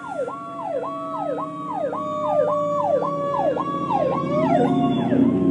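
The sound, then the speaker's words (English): An emergency vehicle siren passes a car that has pulled over to the roadside, sounding a loud, fast cycle of rising and falling sweeps repeated many times over a deep rumble of road traffic that grows toward the end. “there's an emergency vehicle that's getting ready to pass me, so it's going to get loud.”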